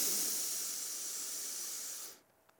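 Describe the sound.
A deep inhale taken during a chanting and movement meditation, heard as a loud, steady breathy hiss that holds for about two seconds and then cuts off into near silence.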